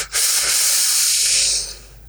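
A long, steady inhale during a guided breathing exercise, a loud breathy hiss that holds for most of two seconds before tapering off, with no talk.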